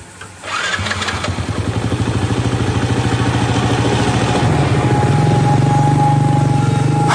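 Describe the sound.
A motorcycle engine cranks and catches after a brief moment, then settles into a loud, steady idle with a fast, even putter that runs to the end.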